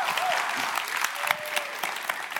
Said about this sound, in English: I wanted to do a certain kind of clap because we used to do this at Campus Crusade. I'm going to start us a slow clap